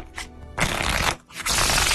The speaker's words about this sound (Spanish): Ahí te va, Aries. Déjame sacar mi baraja.